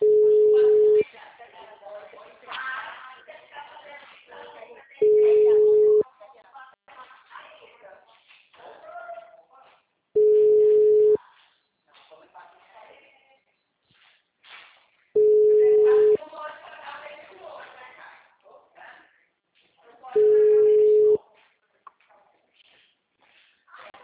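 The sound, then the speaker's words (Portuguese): A telephone ringback tone on an outgoing call repeats five times. Each is a steady, mid-pitched tone lasting about a second, spaced roughly five seconds apart, with people talking in the gaps between them. “Ligando.”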